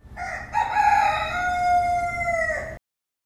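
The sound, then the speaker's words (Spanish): A rooster crows once, a single long, loud, strained call with a bright, nasal, harmonic tone that holds for a couple of seconds before cutting off abruptly into silence. “Un gallo es un animal, un ave. El gallo tiene un sonido bastante curioso y suele cantar al amanecer, cuando empieza a haber luz.”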